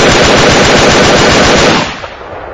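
A long, loud burst of automatic gunfire emptying most of a magazine into a clump of ferns, a dense, continuous rattle of shots for nearly two seconds before it cuts off and fades.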